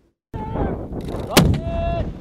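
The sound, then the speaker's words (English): Live-fire weapons crack during a Marine training exercise in Hawaii's Pohakuloa training area during RIMPAC; one sharp, loud blast stands out midway over constant rumbling field noise. “Marines in Hawaii practiced live fire maneuvers during Rim of the Pacific, or RIMPAC.”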